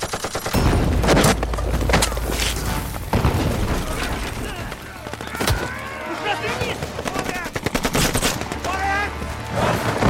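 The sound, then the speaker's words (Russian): Submachine gun fire in a trench battle against Germans, with rapid bursts of shots crackling one after another, mixed with heavy booms from thrown grenades, loud and dense throughout. “Немцы кидают гранаты в окоп. дядя Яша строчит из автомата.”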